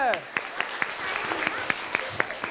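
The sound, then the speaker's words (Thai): Applause at the end of a students' game: a steady patter of many hands, with sharp single claps standing out at irregular moments and voices talking over it. “ตอนนี้เกมก็จบลงแล้วครับผมจบไปแล้วนะครับสำหรับเกมของเรานะครับขอเสียงปรบมือหน่อยครับ”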